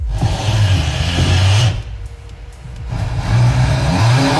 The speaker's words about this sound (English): One car. One shot, one legend. The Ford Mustang GT Fastback.